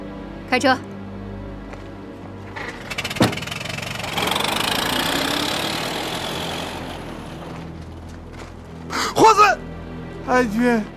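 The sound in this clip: A car engine running, a steady mid-pitched rumble that swells for a few seconds in the middle, with people talking briefly before and after it.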